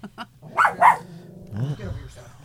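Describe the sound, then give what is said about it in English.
A dog barks in a couple of sharp, loud bursts close together while people talk around it. “That's our dog, Ellie.”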